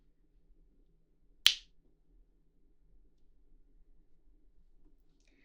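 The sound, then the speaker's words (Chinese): A single sharp finger snap given to wake someone from a relaxation session, a crisp, bright click standing alone against near silence. “听到我的响指，你就会慢慢地苏醒，一身轻松地回到现实中。”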